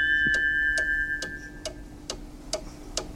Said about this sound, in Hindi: studio की घड़ी की सुइयों के टाइम के मुताबिक टाइम नोट कर लेते हैं 11:08 और 48 सेकंड हुआ चाहते हैं